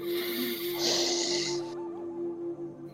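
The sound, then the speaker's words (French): A deep breath drawn in during a guided breathing exercise, heard as an airy hiss that swells and then cuts off after under two seconds, over a soft sustained tone. “on inspire 5 secondes, on bloque 5 secondes et on expire. Allez avec moi. On inspire.”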